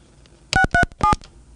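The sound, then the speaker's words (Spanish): Touch-tone DTMF beeps of a telephone number being dialed: three loud, evenly spaced tones, each a steady dual pitch, clean and with no talk. “Vamos a marcar una vez más, no me cuelgues, ¿sale? Sí. Ok, vuelvo a intentar.”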